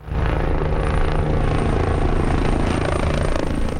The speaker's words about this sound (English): a helicopter water bombs flames in the central town of El Tiemblo